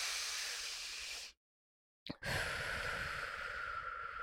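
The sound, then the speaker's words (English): A person takes a deep, slow breath, heard as a soft, airy hiss. It comes in two long stretches separated by a short pause, with no speech. “Take a deep breath.”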